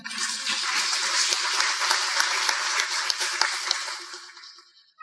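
Applause from an audience at a Democratic Party event, clapping for the evening's organizers: dense, steady clapping that holds for about five seconds, then drops away abruptly at the end.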